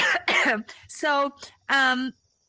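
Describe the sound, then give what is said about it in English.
Coughing from a person with a cold: a few harsh, rough bursts with throat-clearing, separated by short pauses. “Excuse me, I have a cold and she makes me laugh and then the cough comes up.”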